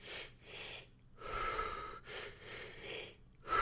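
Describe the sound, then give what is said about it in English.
Breathwork exercise breathing: deep inhales drawn from the belly and chest, then exhales. The breaths are airy, rushing and quite faint, repeated several times in an uneven rhythm. “So it's like two from the belly, one from the chest. So I'm just gonna do it. I know you can't see me, but it's like, and then you exhale.”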